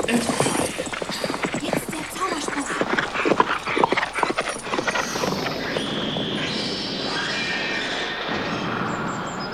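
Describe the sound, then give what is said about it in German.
Hooves of a horse and a donkey galloping, a dense rapid clip-clop of many beats that thins out in the second half, leaving a softer rumbling bed with some high squealing tones. “Aufs Pferd, Don Quixote! Auf den Esel, Sancho! Packt euch bei der Hand! Und stürmt!”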